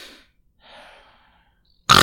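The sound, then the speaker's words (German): A voice imitates a man's snoring: a faint breathy inhale, a soft drawn-out rasp, then a pause before a sudden loud snorting burst at the end. “Kennst du das Schnarchen? Wenn du meinst, es ist alles vorbei. Und dann kommt so ein.”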